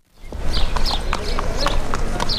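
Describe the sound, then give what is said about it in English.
Horses' hooves clip-clopping during a pre-dawn warm-up among the barns of a Kentucky racetrack: many sharp, fairly loud knocks in an uneven trot-like rhythm over a steady low rumble. “Churchill Downs racetrack in Kentucky, hundreds of workers can be seen weaving in and out of the white barns. Their silhouettes glow under the stadium lights as they mount their horses for a warm-up.”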